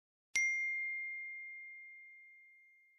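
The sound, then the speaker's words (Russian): A phone message notification: one bright, clear ding that rings out and fades slowly over a few seconds, soft and alone. “Пришло сообщение от Юли”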